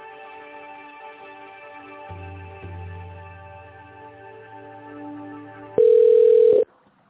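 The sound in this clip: Telephone line tones sound as a call is transferred: a steady, faint humming tone runs throughout, joined partway by a low buzz, then a single loud, pure beep rings out briefly near the end before cutting off.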